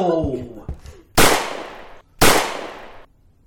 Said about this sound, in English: Your bullets can't hurt me now.